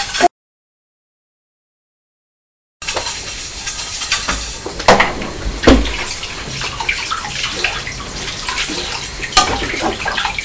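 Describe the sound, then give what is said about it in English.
Water running from a tap while a plate is rinsed. After a short silence the flow starts as a steady rushing hiss, broken by a few sharp knocks. “Here's the plate. Just let me rinse it.”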